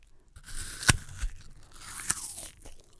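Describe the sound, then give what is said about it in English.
Crisp crunch of teeth biting into an apple: one sharp snap, then a few softer crunching and chewing noises, with no talk. “Here is me biting into an apple.”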